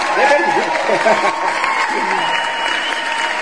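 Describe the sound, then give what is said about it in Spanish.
Applause, a steady, moderately loud patter of clapping that runs the whole way through, with a voice talking over the first part. “A ver, no me había dado cuenta, pero pues oye, un aplauso, ¿no?”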